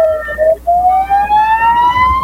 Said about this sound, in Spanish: Encienden las ambulancias, ¿eh?